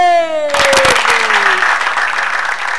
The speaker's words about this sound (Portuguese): Vamos bater palma porque ela merece.